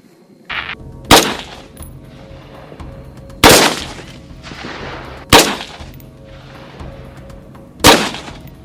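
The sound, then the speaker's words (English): Four loud, sharp gunshots from an M4 rifle, an AR-15 equivalent, fired singly a couple of seconds apart, each a crisp crack with a short ringing tail. “It's one of my favorite guns. The AR-15 or its equivalent. It's an equivalent here. Yep, M4. Yep. All right, buddy, we'll let her rip.”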